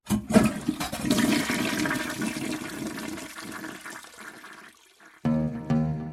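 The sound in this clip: A toilet flushes with loud rushing, gurgling water that pours steadily for several seconds, thins briefly, then surges again near the end.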